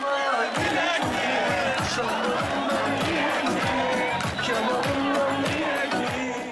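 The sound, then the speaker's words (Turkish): Hatay Spor football fans celebrating their team's promotion to the Süper Lig with flares: a loud crowd cheering and chanting continuously over a steady rhythmic low pulse. “Hatay Sporlu taraftarlar meşaleler yakarak 53 yıl sonra gelen Süper Lig sevincini coşkuyla kutladı.”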